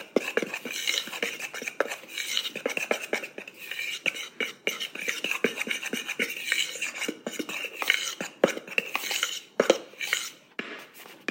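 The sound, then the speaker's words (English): Dry baking ingredients, including leavening and salt, being mixed in a bowl, heard as a steady run of many quick clinks and scrapes with no talking. “we're just going to mix the dry ingredients together to get the leavening and the salt firm, incorporated nicely.”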